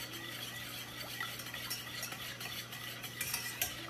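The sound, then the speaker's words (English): Steady whisk scraping in a pan as an egg is whisked into a curd in a home kitchen, a faint continuous metallic swishing with small clinks over a low steady hum. “Drop my first egg. There it is. So you have to whisk all the time.”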